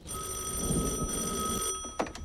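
A telephone bell rings steadily for about a second and a half as someone gets ready to answer, then falls silent. The ring is bright and continuous, with no voices over it.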